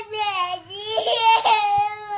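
A 2-year-old girl wails through an iPad temper tantrum: a loud, sustained, strained, high-pitched cry with rich harmonics. It dips briefly, then swells again and stays intense to the end.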